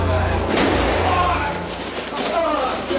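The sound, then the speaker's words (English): A single sharp gunshot rings out as Lee Harvey Oswald is shot in the basement of Dallas Police Headquarters, a loud crack amid agitated voices and commotion. “He's been shot. Lee Oswald has been shot. There's the man with a gun. Absolute panic here in the basement of Dallas Police Headquarters.”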